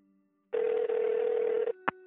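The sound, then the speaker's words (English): Telephone tones as a number is dialed: a steady, buzzy tone lasting about a second, then two short, clipped beeps. “with his other, he dialed the number he had dialed in anger so many times before.”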